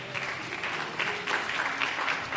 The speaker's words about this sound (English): We can give them a hand clap of praise.